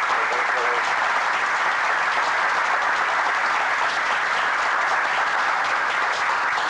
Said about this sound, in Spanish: les pediría un pequeño aplauso para nuestros.